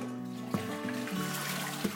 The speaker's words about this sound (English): I then go and do a toilet.